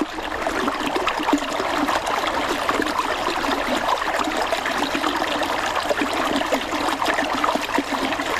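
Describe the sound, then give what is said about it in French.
Flowing water from a small stream, a tributary of the Allier river in Haute-Loire, babbles and splashes in a steady, even wash that keeps going with no talk over it. “Ce que vous entendez là, c'est la musique aquatique d'un petit affluent de la rivière l'Allier, qui est lui-même un affluent de la Loire.”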